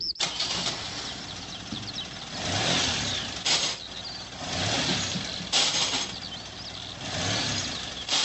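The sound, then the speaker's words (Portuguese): Car engine revving repeatedly while the driver cannot engage any gear. The mid-pitched engine noise swells and drops several times in uneven surges, with short sharp bursts between the louder revs. “Não tô conseguindo engatar nenhuma marcha.”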